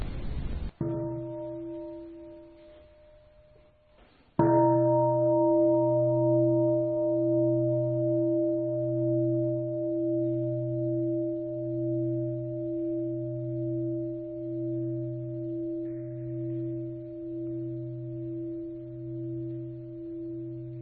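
A meditation bell struck to open a Buddhist practice session: a few bright strikes, the last giving a long, humming ring with a slow wavering pulse that sustains and gradually fades over many seconds.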